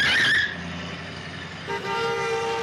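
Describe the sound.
A car nearly hits people in a close call on the road: a loud burst of vehicle noise fades to a lower hum, and then a sustained, steady horn-like tone sounds through the final second.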